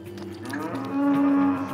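A cow moos during a difficult calving with the calf lying in the wrong position. One drawn-out, low, steady moo swells louder in its second half, heard alone with no talking.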